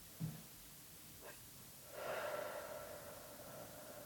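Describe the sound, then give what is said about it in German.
A deep breath in a guided breathing exercise: a brief sniffing inhale through the nose, then a long, steady, airy exhale through the mouth lasting about two seconds, quiet and alone. “einmal tief durch die Nase einatmen und dann lang durch den Mund ausatmen”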